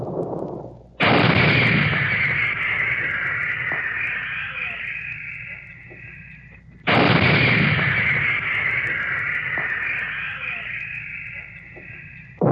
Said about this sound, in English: Behind all this, the big guns, the 155s, pounded away at enemy positions.